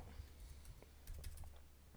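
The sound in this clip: Very faint typing on a computer keyboard, many quick, light keystroke clicks in an irregular stream.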